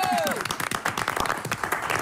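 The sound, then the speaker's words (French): Audience applause greets a performer returning from a long South American tour, a dense, loud patter of many hands clapping that carries on throughout. “je demande à tous, où que vous soyez, d'applaudir celle qui revient d'une grande tournée en Amérique du Sud”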